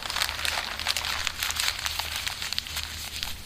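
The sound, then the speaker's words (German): A handwritten paper note being handled, with continuous crinkling and rustling of paper and sharp little crackles, fairly loud and steady throughout, with no voices. “Ich habe mir einen Zettel geschrieben.”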